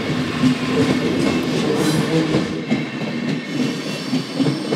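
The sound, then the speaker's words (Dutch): A train rolls past on rails in a steady, loud rumble, with metallic clatter from the wheels over the track. No voices are heard. “Maar goed, dat is dan één trein, één verbindingje naar Praag. Ja, nog eentje. Ja, deze gaat waarschijnlijk naar Wenen.”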